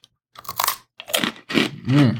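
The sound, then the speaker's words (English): Crunching and chewing of a gluten-free pretzel during a taste test with ale: a few loud, crisp bursts of bite and crunch, separated by short pauses. “Now, this is interesting because this is a gluten-free pretzel. It's gluten-free.”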